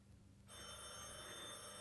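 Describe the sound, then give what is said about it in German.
A telephone bell starts ringing after a brief quiet moment, then holds a steady, bright, continuous ring at even loudness to the end. “Telefon.”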